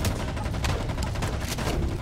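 Rapid, repeated gunfire from a monster-shooting video game, with dense bursts of shots over a continuous low rumble and no break in the noise.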